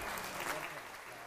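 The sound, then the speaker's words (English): A church audience claps to welcome people, a continuous, even wash of applause that fades slightly toward the end. “Well, welcome. Welcome them with your hands.”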